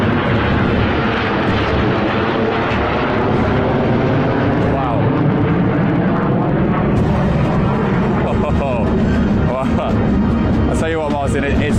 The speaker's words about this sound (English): the B-2 bombers actually are flying overhead right now. You can't see them on your screen just yet. They are literally flying over my head now, flanked by four F-35s. You might be able to hear them.